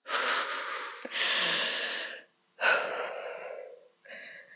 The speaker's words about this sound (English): Just breathe. Yes. Right. Breathe.